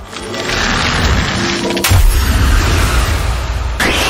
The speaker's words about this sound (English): Choose a move, freeze ray ice, special effect points 90, UP remaining 15. Ertana used freeze ray.